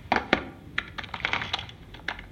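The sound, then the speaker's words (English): Someone types on a laptop keyboard while walking, producing quiet, irregular key clicks and taps in uneven bursts, a few strokes sharper than the rest. “Why are you typing on a laptop whilst walking?”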